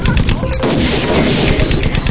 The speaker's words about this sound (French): Joli tir, l'artilleur.